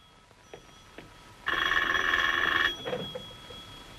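A telephone rings in a domestic evening scene. The bright, trilling electronic ring lasts a little over a second and stands out clearly against soft background noise, then gives way to quieter shuffling.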